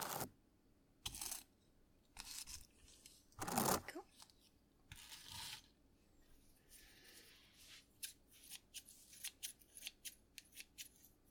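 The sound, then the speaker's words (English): Scissors cut something in a few separated crisp snipping bursts, then a run of many quicker, shorter snips toward the end. “that it's all nice and even, so that when I cut it, it will still be nice and even.”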